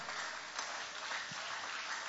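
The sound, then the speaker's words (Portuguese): A church audience applauds in a soft, steady wash of clapping that holds at an even level throughout. “Pode tomar o vosso assento, guarda a Bíblia e aplaude o nome de Jesus com alegria.”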